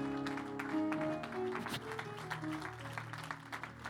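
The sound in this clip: Faint applause from a church audience welcoming an evangelist to preach, a soft patter of clapping over sustained music tones.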